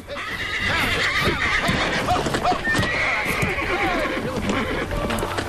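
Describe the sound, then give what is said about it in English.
A wild horse rears against a rope held around its neck, letting out loud, repeated neighs and whinnies over stamping hooves that continue throughout. “A wild horse rears against a rope around its neck, which one of Jameson's men is holding at a distance.”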